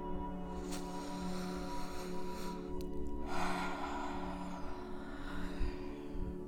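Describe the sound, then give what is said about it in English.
A big, deep cleansing breath taken during a guided meditation: a long, airy breathy rush that swells and then fades, heard alone over a steady low drone. “Take a big cleansing deep breath.”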